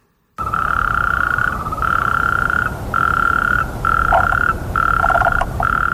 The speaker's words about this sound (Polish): A skoro tak, to zagnieździły się tam żaby. Skoro tak, to rechoczą na potęgę i zakłócają ciszę nocną.